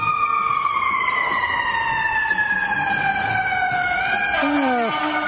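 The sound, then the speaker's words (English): A fire engine siren goes by a park, its loud, steady wail sliding gradually downward in pitch, then dropping more sharply near the end over constant background rumble. “The fire engine going by.”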